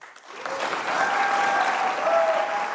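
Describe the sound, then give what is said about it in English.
Audience applause rises quickly and holds as a dense, steady clatter of clapping while the candidates take the stage at the 2020 vice presidential debate. “Please welcome California Senator Kamala Harris and Vice President Mike Pence.”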